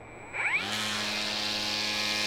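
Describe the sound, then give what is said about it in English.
An EGO electric string trimmer starts up while weed eating, spinning up with a rising whine before settling into a steady, fairly quiet motor hum. “and I'm weed eating. Again, pretty quiet for a power tool.”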